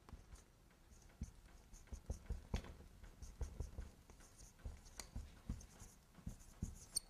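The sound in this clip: Handwriting with a pen, many quick scratchy strokes in uneven bursts that continue steadily throughout, heard alone without talk.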